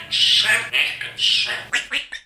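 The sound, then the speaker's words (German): A female parrot imitates human speech in several raspy, high-pitched squawking bursts that mimic spoken phrases, heard alone with short gaps between them. “Und es gibt Tiere, die sprechen nicht nur miteinander, die lernen sogar unsere Menschensprache. Naja, eigentlich imitieren sie uns bloß, so wie Papageiendame Leonie.”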